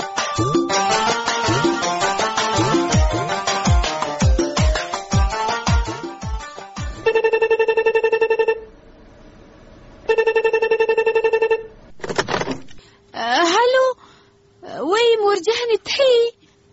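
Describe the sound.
A telephone ringtone sounds during a dramatized sketch: two long electronic ringing bursts, each about one and a half seconds, made of steady stacked tones. Other tonal sounds come before them, and voices follow.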